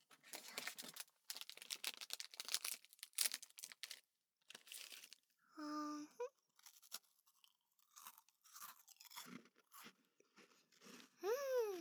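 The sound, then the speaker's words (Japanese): Someone eating a cookie as a snack on a leisure outing makes many crisp, crunchy bites and chews in irregular bursts with short pauses, all fairly faint. “お次はどれにしようかな。クッキーにしようっと。”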